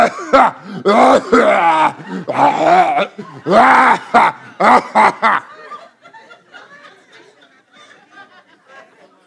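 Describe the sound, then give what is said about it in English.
A voice imitates a heavy, hacking cough: a run of loud, voiced, rasping bursts that then trails off into quieter, breathy, laugh-like sounds. “if somebody literally was sitting next to you and started coughing, you know, a subtle cough is fine. But when somebody starts going,”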